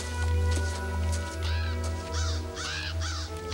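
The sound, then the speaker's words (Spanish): Crows caw over a meadow in a few hoarse, arching calls that come mostly in the second half, over a steady low droning background. “John se detiene y mira hacia la pradera donde los cuervos cubren el cuerpo de Cisco.”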